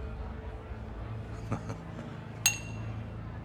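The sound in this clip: Glasses clink in a toast: a couple of soft taps, then one bright, ringing clink with a short shimmering decay over a low, quiet background.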